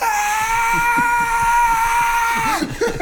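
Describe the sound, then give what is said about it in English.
A voice imitates a screaming sun with a face, holding one loud, high-pitched scream steady for about two and a half seconds before it breaks off abruptly. “you just hear this loud screaming come, and the sun is just a face,”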